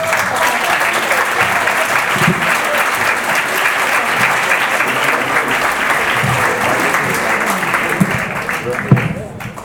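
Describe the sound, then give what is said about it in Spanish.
Sustained applause from the audience at the closing of a people's health movement assembly: a loud, dense roar of many hands clapping with some voices mixed in, holding steady for nearly ten seconds before thinning out at the end. “Un aplauso para...”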